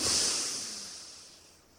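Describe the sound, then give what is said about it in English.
A slow, deliberate inhale, taken as part of a counted breathing exercise, makes a soft airy hiss. It is loudest at the start and fades steadily, with no other sound. “Let's breathe in for 4.”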